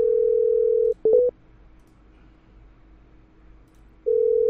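A steady telephone dial tone hums for about a second, then gives way to a few short beeps as a number is dialed. It falls silent for about three seconds before the steady tone returns.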